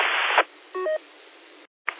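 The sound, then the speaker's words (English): A telephone gives a brief electronic double tone amid steady line static, followed by a short drop to silence and a final burst of hiss. “You probably hear my phone.”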